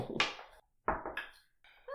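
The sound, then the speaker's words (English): A secret box used during a tabletop role-playing game gives a few soft, hollow knocks. The thuds are short and separated by brief silences. “It is fun to use your secret box. I just like the little knock that it makes.”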